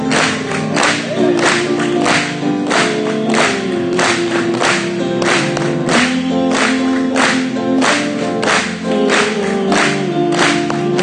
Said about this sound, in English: just clap it to him